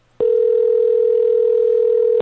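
A Skype call dialing tone sounds as one loud, unbroken beep that holds a single steady pitch for about two seconds, starting and cutting off abruptly.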